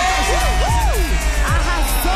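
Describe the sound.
Brazilian football fans cheering after their number 9 scores against Morocco, a loud mass of shouting voices and whoops rising and falling over a constant crowd roar.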